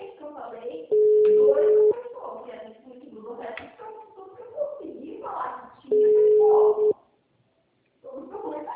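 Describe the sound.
Phone call tones before a voicemail message: two long, steady mid-pitched beeps about a second each, with a recorded voice talking between them.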